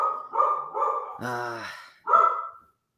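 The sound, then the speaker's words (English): A dog barks in a few loud, sharp mid-pitched bursts, with one drawn-out whining cry in the middle, cutting off abruptly at the end. “It sounds like the dog doesn't like that Southampton bet, so maybe we might have to skip the Southampton bet on that alone.”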